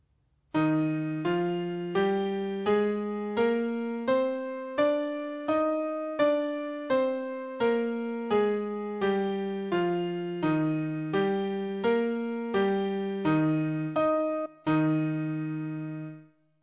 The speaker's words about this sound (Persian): تمرین 2. گام ر ماژور به صورت بالا و پایین رونده با پیانو